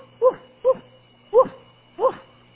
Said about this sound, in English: This little Chihuahua was running up down right next to that bulldog going, woof, woof, woof, woof,